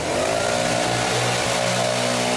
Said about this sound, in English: A trainer prepares to hit them with a few gusts from a leaf blower to simulate harsh winds that may hamper survival efforts.